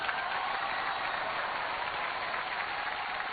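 Audience applause at a comedy stage show, a dense, continuous patter of many hands clapping at an even level throughout, with no voices.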